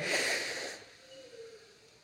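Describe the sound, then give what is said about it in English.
An audience taking one big deep breath in together on cue during a talk about gas exchange: a broad, airy rush of inhaling that lasts under a second, then fades to near silence. “why don't we all right now together take one big collective deep breath in. Ready? In.”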